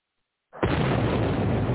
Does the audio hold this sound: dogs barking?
no

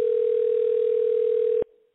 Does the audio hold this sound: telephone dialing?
yes

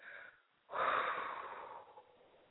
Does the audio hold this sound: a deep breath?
yes

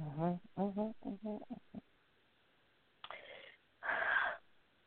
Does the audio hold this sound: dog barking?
no

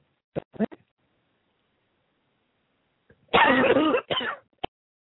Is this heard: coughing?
yes

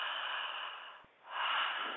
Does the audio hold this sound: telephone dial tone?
no

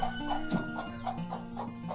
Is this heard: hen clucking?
yes

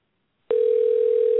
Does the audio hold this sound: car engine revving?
no

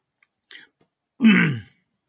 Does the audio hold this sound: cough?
yes

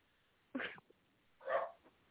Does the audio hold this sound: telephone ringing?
no

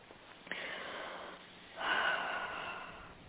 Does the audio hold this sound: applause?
no

